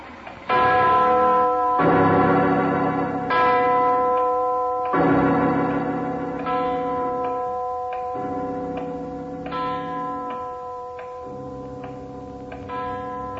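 A giant clock bell strikes over and over in slow, loud, ringing tolls, each stroke sustaining and overlapping the next, alone without voices.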